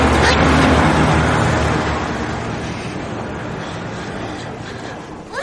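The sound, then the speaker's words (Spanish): A car passes close by on a street, a loud, broad rush of engine and tyre noise that is strongest at the start and then slowly fades. “Llegan a otra calle y un coche pasa cerca de ellos. Se echan hacia atrás para no ser atropellados.”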